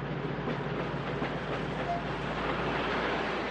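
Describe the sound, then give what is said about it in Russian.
A passenger train arriving at a station platform produces a steady low rumble and rattle of rolling carriages with faint rhythmic clatter, constant in level throughout. “Прибывает на первый путь. Стоянка поезда 5 минут.”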